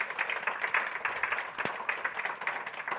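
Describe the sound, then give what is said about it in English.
Audience applause for four panellists at an evening event, a dense, steady crowd clapping that stays fairly faint and even throughout. “Beautiful. Haven't they been incredible this evening? Yeah, a massive round of applause”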